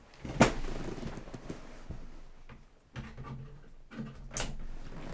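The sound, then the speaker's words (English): Small plastic fold-out cord-wrap wings on a gadget snapping open, heard as a few sharp, quiet clicks separated by soft handling rustles. “has these little wings that open up. Can you hear that? And you can wrap your cord around it.”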